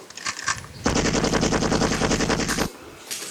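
Rapid machine-gun fire from a character in a multiplayer video game with several play modes, one loud unbroken burst of fast shots lasting nearly two seconds, set between quieter clicks and thuds.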